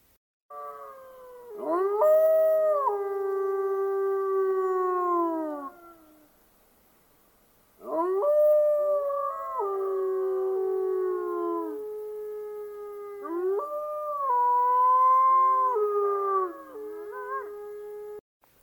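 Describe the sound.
Wolf howling in three long, drawn-out calls separated by short silences, each a clear, tonal wail that bends and wavers in pitch before trailing off, with no other sounds around them.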